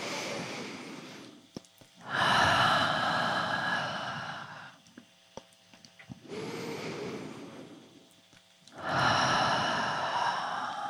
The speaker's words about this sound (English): taking a deep breath in through the nose and then out through the mouth. And a few more times.